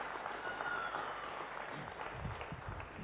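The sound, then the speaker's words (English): An audience applauds volunteers called up to help at a live demonstration. The clapping is a steady, moderate wash that runs without a break from start to end. “Let's give them a round of applause for volunteering.”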